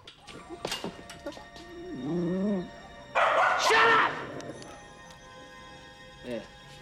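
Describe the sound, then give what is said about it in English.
A small Jack Russell terrier barks excitedly, firing off a few sharp, high yips and barks with a whining, tonal cry between them, then a louder rough burst and one last short yelp. “The little Jack Russell barks excitedly.”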